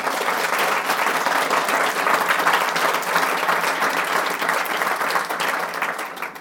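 Audience applause welcoming authors at an Edinburgh event: steady, dense clapping that holds at an even, fairly loud level for about six seconds and tails off slightly at the end, with no voices.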